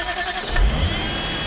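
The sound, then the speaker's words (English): A car engine revving as a sound effect: a brief, moderately loud, steady engine rev with a low rumble, heard alone. “So join me in our imaginary car”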